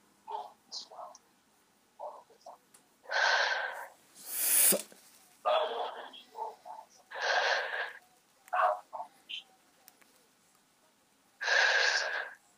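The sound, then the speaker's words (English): Heavy breathing in and out through the mouth, loud forceful huffs repeated several times with short pauses, and softer breathy sounds in between. “Just breathe in and out 5 times heavily with your mouth.”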